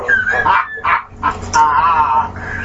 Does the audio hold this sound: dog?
yes

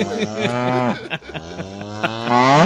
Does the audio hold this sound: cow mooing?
yes

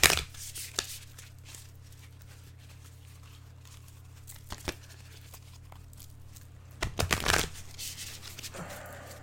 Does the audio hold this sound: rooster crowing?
no

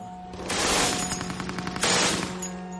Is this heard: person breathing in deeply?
no

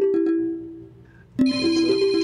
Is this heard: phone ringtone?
yes

